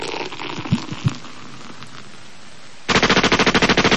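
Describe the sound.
A machine gun fire sound effect: a loud, rapid, rattling burst of many shots fills the final second. Before it, a couple of soft low thuds sit over quiet background noise.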